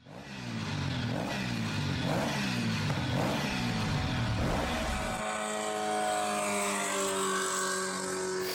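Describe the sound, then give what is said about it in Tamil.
Fast vehicles roar past on a road in a quick series of whooshing passes, then a steady, high engine drone takes over. The sound is loud and continuous, with no talk. “அப்பா, பாதே கிழிஞ்சிரும் போல. எப்படித்தான் இவ்வளவு வேகமா வண்டி ஓட்டுறாங்களோ!”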